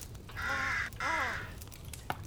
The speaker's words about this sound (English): I can smell a smelly, smelly, smelly crow right now.